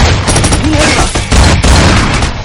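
Rapid gunfire from a shootout in a 2013 action thriller film, as a man steps out of a car and shoots. The bursts are loud, dense and overlapping, with no clear gaps between shots.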